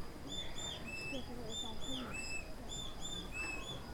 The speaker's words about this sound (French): Je suis la mésange charbonnière.